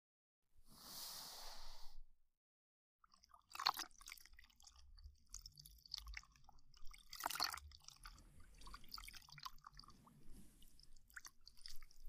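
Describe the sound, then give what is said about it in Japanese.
Soft towel wiping over the ears in ear-cleaning ASMR: faint, close swishing and rubbing, with one longer hushed swipe first, then scattered gentle scratchy rubs and rustles. “まずは、お耳を拭いていきますね。”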